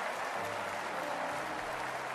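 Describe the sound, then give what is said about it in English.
A church audience claps during a morning service to welcome a high school class of 1960. The clapping is thick, even and sustained, with no breaks from start to finish. “Would you stand, class? Would you stand, clap your hands, and let's welcome them.”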